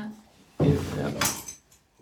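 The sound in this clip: Clatter and rattling as a geocache box is opened and its travel bug hotel rummaged: a sudden muffled thump, then jostling plastic and small objects, with a sharp rustling scrape near the end.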